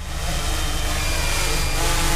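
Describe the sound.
A black police drone lifts off from a field track near a road junction. Its motors give a steady, even buzzing hum that grows slightly louder toward the end, with no voices.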